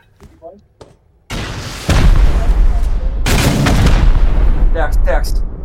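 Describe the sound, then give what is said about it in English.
A rocket launcher fires in a video game: a sharp launch, then a heavy, loud blast that trails into a long rumbling roar, with brief talking before and near the end. “I shot him with a rocket.”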